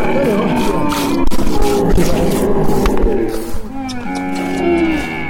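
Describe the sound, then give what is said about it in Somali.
Camels bellow and groan as they are brought to watering holes, with several low, drawn-out, harmonic calls following one another over a steady background. “waraha iyo balliyada ayaa geela la geeyaa xilliyada harki si looga waraabiyo”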